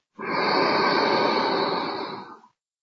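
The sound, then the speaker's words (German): A single long breath in during a guided meditation, drawn slowly and steadily for about two seconds before it tapers off and falls silent. The breath is heard alone, with no voice over it. “Ich atme ein,”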